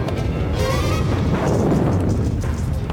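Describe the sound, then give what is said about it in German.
A spaceship explodes after colliding with an enemy ship in a science-fiction space battle. A loud, dense roar of blast noise rumbles steadily for the full three seconds, with no quiet gaps. “Wir prallen mit einem Topsieder zusammen. Die beiden Raumjäger mit Nissen und Derringhaus sind draußen. Von dem Topsieder ist nur eine Feuerwolke übrig geblieben.”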